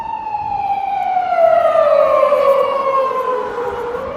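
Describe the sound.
A police siren wails loudly and continuously, its tone sliding slowly downward as the vehicle passes, with faint road noise underneath.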